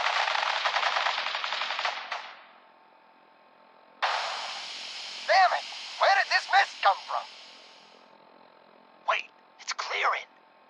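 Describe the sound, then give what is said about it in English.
Machine-gun fire in a radio drama comes as two long rattling bursts, the first fading out and the second beginning abruptly after a pause. Short shouted voices break in during and after the second burst. “Stop or we'll shoot! Men, open fire!”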